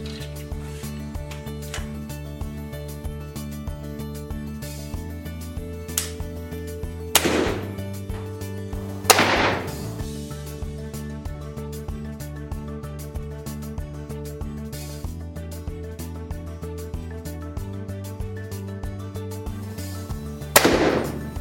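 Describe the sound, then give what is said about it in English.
Sharp shots from a Centerpoint Gladiator Whisper 405 crossbow: a few loud, abrupt snaps stand out above steady background music. “So we just got done shooting the Gladiator Whisper 405 by Centerpoint, and this bow is a powerhouse.”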